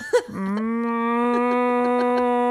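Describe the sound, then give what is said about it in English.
A cow moos in one long, steady, loud call that holds a low, even pitch after a brief short sound at the very start. “Did you hear the cows in the background?”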